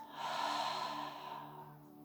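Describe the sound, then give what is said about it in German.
A deep, slow breath, drawn in through the nose and let out through the mouth during a relaxation exercise: one soft, airy, sustained breath that swells and then eases off, quiet and alone. “Und atme auch ganz tief und genüsslich durch deine Nase ein und durch deinen Mund wieder aus.”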